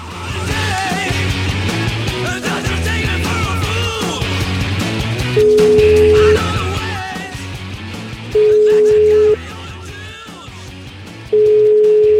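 A telephone line rings while a call is being placed, sounding as steady mid-pitched ring tones about a second long. Three rings repeat at regular intervals over loud background music.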